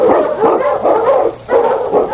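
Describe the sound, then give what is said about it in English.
Husky sled dogs on a snowy Yukon trail bark and yap together in a dense, continuous chorus of overlapping calls, with one brief lull partway through. “Hun King! Hun, you Huskies!”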